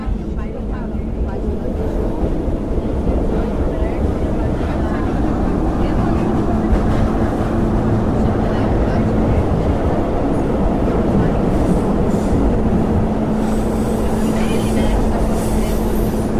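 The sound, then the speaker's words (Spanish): A metro train at a station platform on the red line 3 gives a loud, steady rumble with a low hum running through it, continuous and unbroken throughout. “Estação C. Acesso à linha 3 vermelha. Desembarque pelo lado esquerdo do trem.”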